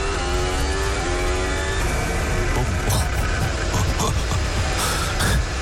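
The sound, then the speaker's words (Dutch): A Formula 1 car at the 2026 Canadian Grand Prix with a failing gearbox: a high engine whine that breaks into rough roaring, punctuated by a few sharp bangs from the gearbox. “Ja, je hoeft geen engineer voor te zijn om te horen dat hier iets goed gaat. Waarschijnlijk zo te horen is dat van de versnellingsbak die eronder uitknalt.”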